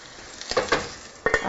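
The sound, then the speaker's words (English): Food being stirred in a pan, with a few scraping strokes of the utensil over a soft sizzling background; no voices. “All right, stirring.”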